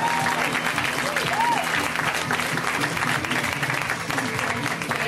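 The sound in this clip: Audience applause for a comedian at a comedy show in Fort Lauderdale, dense and continuous clapping with crowd noise that stays steady from start to finish.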